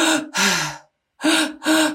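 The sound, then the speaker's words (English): Rapid, forceful breaths in and out during an activating breathwork session: four loud, airy breaths in two close pairs, split by a brief silent pause. “So the first part of the breathwork session is activating. So you're breathing, it's in and out.”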